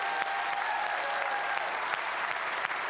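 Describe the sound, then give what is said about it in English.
A church audience applauds steadily: dense, continuous clapping fills the whole stretch at an even loudness, with no talk over it. “And I'm just wondering if we could give them a round of applause.”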